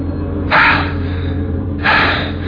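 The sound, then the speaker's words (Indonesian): Two sharp, startled gasps of breath, loud and close, break through a low steady hum, each a brief airy rush of uneven, shaken breathing. “Dengan kaget dan nafas yang tidak beraturan, aku bertanya.”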